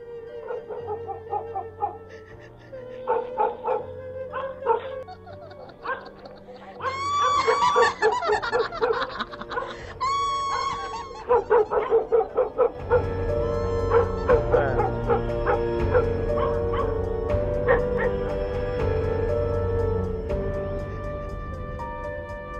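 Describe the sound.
Dogs in a village at night barking loudly and chaotically, with many overlapping barks and yelps over a musical backing that grows denser partway through.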